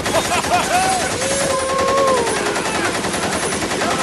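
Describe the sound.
Automatic fire from a Tommy gun sounds as one continuous, rapid burst of shots that lasts the whole clip at a steady, loud level.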